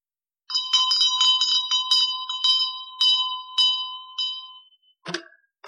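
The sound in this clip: A bell rung to summon a servant gives a quick series of bright, ringing metallic strikes, then a few slower rings that fade out, followed by a short different sound at the very end.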